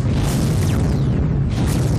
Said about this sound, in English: Alright, we've got support now firing on the other vessels.